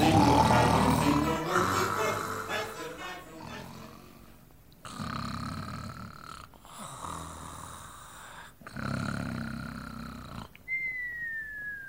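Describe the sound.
Comic snoring of Mestre Sapo, a frog asleep on a garden swing, imitated by a human voice: music fades out, then three long, rasping snores follow in a slow rhythm, with a thin whistle at the close.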